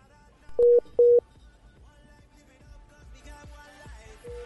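Telephone keypad tones while a long-distance call is reconnected: two loud, identical dialing beeps in quick succession, followed by fainter, lower tones on the line.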